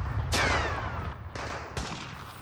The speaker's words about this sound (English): I can still hear bullets firing.